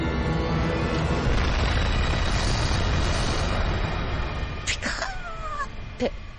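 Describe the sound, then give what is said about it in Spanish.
A deep, roaring rumble stands in for the atomic bomb exploding 600 metres above the centre of Hiroshima, holding heavy and continuous for about four seconds before thinning, followed by a few brief higher-pitched sounds. “A las 8 y cuarto de la mañana explotará a 600 metros sobre el centro de la ciudad de Hiroshima.”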